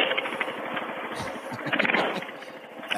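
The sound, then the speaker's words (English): A mini bike engine running with a straight-piped exhaust gives a loud, rapid, rattling popping that stays continuous and fairly even across three seconds. “Maybe I'll fire up the mini bike. Just straight piped her.”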